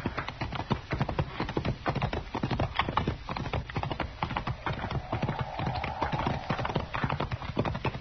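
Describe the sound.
Horse hooves clip-clop as riders head toward a hackberry tree in sunlight, a brisk, even stream of many hoof strikes at a steady moderate level, with no talk.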